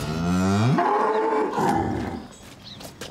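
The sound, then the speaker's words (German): A young cow being trained at a cow school to pull a carriage or sulky lets out one long moo. It starts low, rises sharply in pitch, holds a strained, roaring tone, then fades, with a few faint clicks afterward. “Die junge Kuh Ornella soll bald eine Kutsche bzw. einen Sulki ziehen können.”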